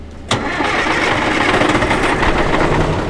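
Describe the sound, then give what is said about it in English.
A pump truck starts pumping out a public campground toilet at a Bridger-Teton campground north of Pinedale, its loud, steady engine and suction roar kicking in abruptly and holding constant. “Take, for example, the smelly business of pumping public toilets. It's going to be loud.”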